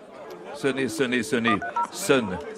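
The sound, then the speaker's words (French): Intercom being rung at the entrance of a specialised care home: short electronic keypad tones, partly overlapped by a voice. “Un interphone, je sonne.”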